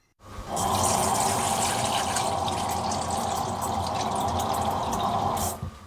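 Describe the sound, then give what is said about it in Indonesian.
Cold water poured into a large bowl to cool blanched spinach, a loud, steady rushing splash that starts abruptly, holds evenly for several seconds and then stops. “Masukkan air dingin ke dalam mangkuk yang besar.”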